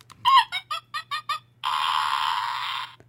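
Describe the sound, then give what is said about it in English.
Monkey fart sound effect: six quick, squeaky clucking bursts followed by one long, buzzy, sustained blast lasting over a second, loud and heard alone. “A rooster fart? Frog fart? It's a monkey fart.”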